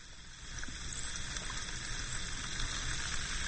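An effervescent vitamin C tablet fizzes in a glass of water, giving a steady, faint crackling hiss of tiny bursting bubbles that runs without a break and with no talk.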